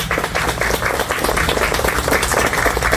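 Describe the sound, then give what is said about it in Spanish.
Applause from a gathered group for a corporate volunteer team at a community project event for young children, a steady patter of many hands clapping, moderately loud and unbroken. “de este lado tenemos a todo el equipo de Constellation Brands, al cual le pido un fuerte aplauso,”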